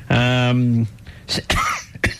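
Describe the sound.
Coughing after swallowing a fly: a sustained voiced sound, then a few short, harsh coughs in quick succession.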